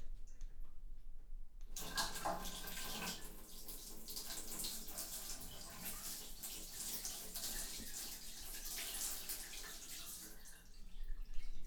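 A toilet flushes: after a brief quiet moment a loud, sudden rush of water starts and continues steadily for several seconds before easing slightly near the end. No one speaks.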